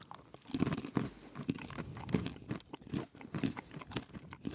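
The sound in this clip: Crunchy chewing of cashews coated with a sticky brown vanilla sugar paste, with many quiet, irregular crisp bites and mouth sounds close together, no talk.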